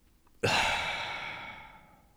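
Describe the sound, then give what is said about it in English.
A person's single deep breath: a loud, breathy rush that starts abruptly and then slowly fades over nearly two seconds, with no talk. “So let's talk about taking a deep breath. Okay, here we go.”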